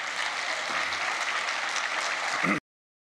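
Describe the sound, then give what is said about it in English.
A church audience claps during a service in a full, continuous burst of applause at a moderate, steady level that ends abruptly. “And let me just say this before we finish clapping for him.”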